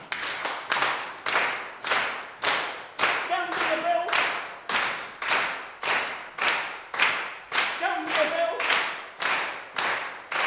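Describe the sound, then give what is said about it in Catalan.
Rhythmic body percussion, with feet stamping on the floor, one foot and then the other, as part of a group rhythm exercise. Many sharp, even hits repeat in a steady beat throughout. “Primer, picar amb un peu a terra, després amb l'altre, acompanyament del cos.”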